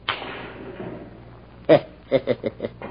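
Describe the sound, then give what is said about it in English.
In a pool hall, a cue strikes the ball for a bank shot that sends the eight ball into the center pocket. One sharp crack is followed by four quicker, lighter knocks of balls clicking together. “Eight ball in the center pocket. Bank shot.”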